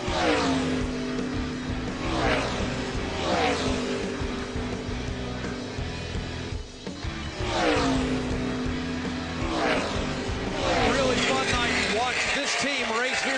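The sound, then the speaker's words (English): Toyota race car engines roar through turn three on the final lap of a night race, a loud sustained howl with repeated rising and falling pitch sweeps as cars pass, while a voice talks over it. “What a great job Truex has done behind the wheel of that Toyota tonight. For the final time now, down into turn three, in the middle of turn three, nice and smooth as he heads home.”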